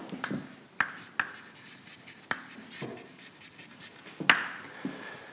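Writing on a board during a physics lecture on curvature energy: steady, dry scratching strokes broken by several sharper taps and flicks as the writing tool meets the surface, with no talk over it.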